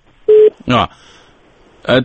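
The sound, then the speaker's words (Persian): A single short, loud, steady beep marks a phone call being cut off, with brief bits of speech after it. “خب تماس ما قطع شد”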